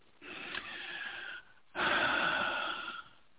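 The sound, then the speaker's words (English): A person breathes deeply during a guided emotional session: two long, airy breaths, the first softer and the second louder and fuller, with a short pause between them. “Breathe. Yeah. Okay. Breathing with you. Go for it. Let yourself breathe into that feeling”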